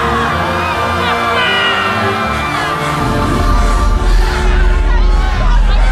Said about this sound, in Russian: Толпа людей, оставшихся на «Титанике», в панике бежит вверх к корме корабля.